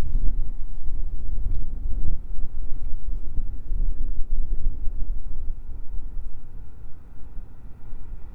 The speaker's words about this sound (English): I'm hunkered down behind a wall, sort of out of the wind,